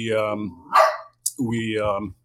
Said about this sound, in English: apologies. Oh, no, the dogs like to join the show every now and then.